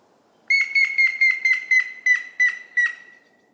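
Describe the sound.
A grey-headed woodpecker calls from a wet, open riverside alder woodland. Its loud, clear series of whistled notes falls slightly in pitch and slows, spacing out toward the end, against a quiet background.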